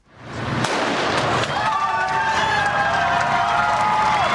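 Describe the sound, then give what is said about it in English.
Sharp cracks of the starting gun for the Boston Marathon elite men's race ring out over the loud, continuous roar of a cheering crowd. “Here's the sound of this morning's starting gunshot for the elite male runners.”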